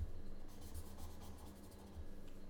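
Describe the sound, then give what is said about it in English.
Pen-on-paper scratching while someone draws small triangular trees: a few soft, quick rubbing strokes in an uneven rhythm over a faint low hum, with no voices. “which is why I'm drawing all these little triangular trees.”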